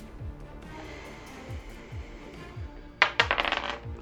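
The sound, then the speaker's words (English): A six-sided die is rolled during a tabletop role-playing game, landing in a sudden clatter of quick, bright clicks that bounce and fade within about a second, after a stretch of soft, low background thumps. “Roll a d6 for me, please”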